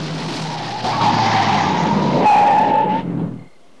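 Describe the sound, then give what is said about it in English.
Tyres squeal as a car skids to a halt at the end of a winding drive beside another car. A loud, sustained screech over engine rumble swells, then cuts off abruptly. “He comes to a halt next to the sergeant's car.”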